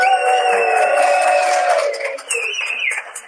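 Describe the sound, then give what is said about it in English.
A live audience cheers at a show, a dense, steady wash of crowd noise with high, sustained whoops held over it for a few seconds, dipping briefly before a second burst of shouting and scattered clapping. “You got a great crowd out here today. It's fantastic.”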